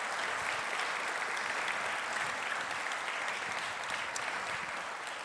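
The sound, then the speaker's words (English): Audience applause greets a guest speaker at an Aboriginal and Torres Strait Islander mental health event, a dense, steady wash of clapping that holds at an even, fairly soft level throughout. “please put your hands together for Mr. Joe Williams, everyone.”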